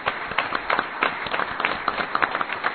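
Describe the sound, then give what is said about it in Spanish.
Audience applause at a children's football organisation ceremony, a dense steady patter of many hands clapping with sharp irregular peaks, fairly loud and sustained throughout. “El fuerte aplauso entonces”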